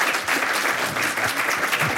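Brief applause from an audience as musicians at a live event set down their microphones to move to their instruments. The clapping is dense and steady, fairly loud and without voices.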